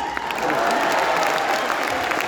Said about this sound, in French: Vraiment, je veux que vous lui fassiez une ovation parce que je l'adore et qu'elle a beaucoup de talent.